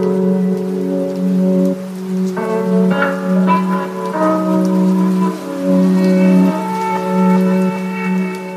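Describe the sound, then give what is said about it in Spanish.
Rain falling outside, large drops striking a window in a steady, loud patter that runs throughout, alongside sustained low tonal sounds. “Aquí, calentitos, mientras llueve fuera y vemos cómo caen los goterones por la ventana.”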